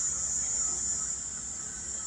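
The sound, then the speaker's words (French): A cicada's steady, high-pitched buzz runs with a lawnmower's low, even drone beneath it. Both sounds hold constant and unbroken throughout, with no voices. “Tondeuse et cigale en accord.”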